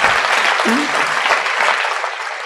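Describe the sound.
Audience applause at a Gujarati religious discourse: dense, steady hand clapping from many people that fills the whole clip at an even, fairly loud level and eases slightly toward the end.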